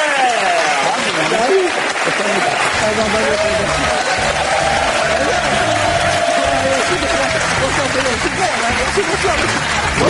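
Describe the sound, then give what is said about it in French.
Audience applause for a singer at a tribute show, a dense continuous clapping wash lasting several seconds. A voice speaks over the clapping throughout. “Vous pouvez applaudir Jonathan.”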